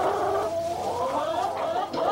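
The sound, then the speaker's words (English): A chicken clucks around a farm, a loud, continuous low burbling with a wavering, throaty tone and no break, and no one talking. “That's a chicken.”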